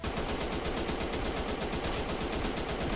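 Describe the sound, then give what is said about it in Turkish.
Video game gunfire sounds as dense, rapid automatic bursts that run continuously and loudly, with a steady crackling rattle and no pauses or talk. “Bir dakika. Sıkan var. Nereden? Buradan.”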